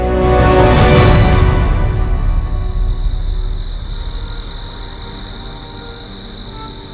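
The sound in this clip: Crickets chirp in fast, high, pulsing trills that carry on steadily after a loud, low swell fades away at the start.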